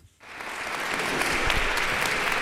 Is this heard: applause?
yes